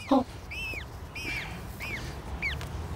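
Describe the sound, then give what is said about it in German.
High, thin peeping of a freshly hatched chick just out of its eggshell: a few short, arched chirps spaced apart over a low, steady background rumble. “Oh, ein ganz kleines Küken.”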